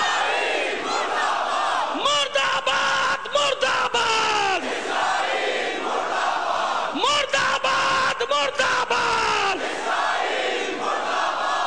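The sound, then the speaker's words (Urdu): A large crowd shouts a slogan in unison, answering a leader's call with a chant that names Israel. Two loud waves of rising, bellowing voices rise over a constant roar of the crowd. “اب میں نعرہ لگاؤں گا, جواب میں اسرائیل کا نام آنا چاہیے. مردہ باد, مردہ باد,”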